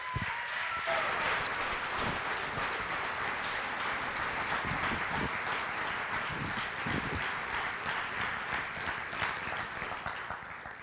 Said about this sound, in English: if you guys would put your hands together and give a warm welcome for Justin.